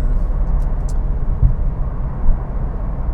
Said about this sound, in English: so I'm going to get this car out on the open road